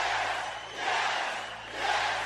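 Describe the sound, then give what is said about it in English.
Wrestling video game crowd cheering: a roar of massed voices that swells twice, dipping briefly between the surges. “And everybody cheers.”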